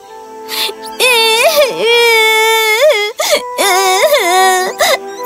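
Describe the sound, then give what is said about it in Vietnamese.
A young girl cries in pain after tumbling over tree roots and bruising her knee, letting out loud, drawn-out wailing sobs in several bursts with short breaks between them, the pitch bending up and down. “Cô bé rất đau đớn, bất lực nên đã bật khóc.”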